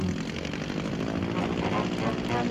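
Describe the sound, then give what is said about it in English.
Steady, loud engine roar of a winged flying car taxiing down a highway with its wings spread, a dense continuous drone that holds even throughout. “The wings are spreading out. Now, a quick taxi down the highway.”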